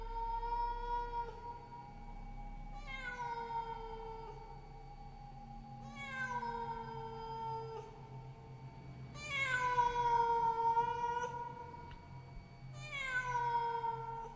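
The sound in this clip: A black cat on a wall cries mournfully in several drawn-out, wavering meows. The calls are high-pitched, moderately loud and separated by short pauses, over a low steady hum.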